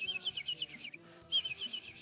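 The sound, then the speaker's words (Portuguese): Small birds twittering at sunrise: faint, high, rapid chirps in two bursts separated by a brief pause. “Os passarinhos já estavam cantando, viu?”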